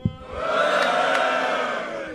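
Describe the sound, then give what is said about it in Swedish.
A live show audience lets out a loud, rowdy, drunken-sounding roar of shouting voices that swells quickly after a brief onset and holds steady for about two seconds. “Kan man få ett fyllevrål från publiken?”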